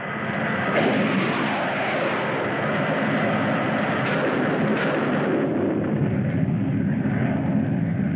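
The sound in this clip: Science-fiction spaceship weapons fire during a space battle: a sustained, loud roaring barrage, with a few sharper blasts breaking through the steady rumble and no voices.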